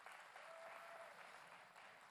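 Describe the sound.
Steady applause from an audience welcoming a senior student, a faint, even patter of clapping with no break.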